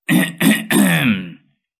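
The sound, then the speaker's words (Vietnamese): An old man clearing his throat: three gruff, rasping bursts in quick succession, the third longer and trailing off, heard alone and fairly loud. “Lão Hậu hắng giọng.”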